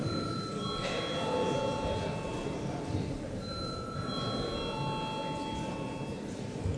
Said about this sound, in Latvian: Lūdzu zvanu.